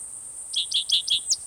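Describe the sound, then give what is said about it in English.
Cicadas drone in the background as a steady, high-pitched buzz. Five short, bright chirps sound over it in quick succession, evenly spaced. “cicadas in the background”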